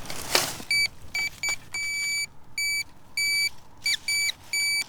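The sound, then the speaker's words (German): Metal detector signalling non-ferrous metal: a series of steady, high electronic tones of uneven length, some brief and others held for about half a second, separated by short gaps, with no talk. “bevor er überhaupt den Detektor einschaltet. Kurz darauf schlägt das Gerät wieder aus. Man hört es also sehr deutlich. Buntmetall.”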